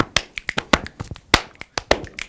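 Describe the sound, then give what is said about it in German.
Body percussion made with clapping and finger snapping rings out in a brisk rhythmic pattern. Many crisp, sharp claps and snaps fall in quick succession with short gaps, loud and without any talk. “Mit dem eigenen Körper kann man schließlich auch Musik machen.”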